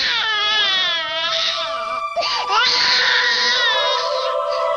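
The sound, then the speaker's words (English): An infant cries loudly in sustained, wavering high-pitched wails, briefly breaking off near the middle before the harsh crying resumes. “a baby's cry contains random, jarring frequencies.”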